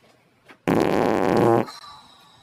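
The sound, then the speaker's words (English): A single loud fart rips out for about a second, a low, rough, sputtering blat that stops abruptly and leaves near silence behind it. “Ah, who farted? Ah, that's disgusting!”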